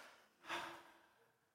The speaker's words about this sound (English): Everybody take a breath.